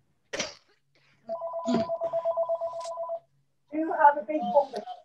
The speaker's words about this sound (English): So, and I am sorry, that is my phone ringing.